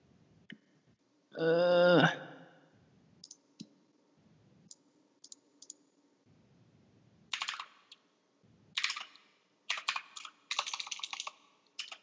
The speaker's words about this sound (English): I can hear your keyboard.